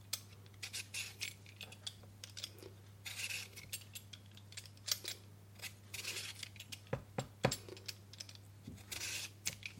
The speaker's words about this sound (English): now what I'm going to do is I'm going to prep the potatoes, just going to peel those.